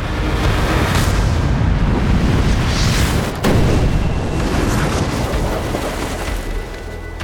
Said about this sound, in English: A fireball shot down from the heavens, a blaze of white-hot flame